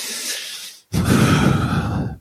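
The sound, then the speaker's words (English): A woman takes a long, shuddering breath in a back room: a softer breathy first part, a brief silent pause, then a louder, rough, trembling breath lasting over a second before stopping abruptly. “takes a long, shuddered breath”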